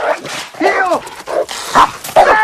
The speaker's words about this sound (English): The dog chases him back and forth across the backyard.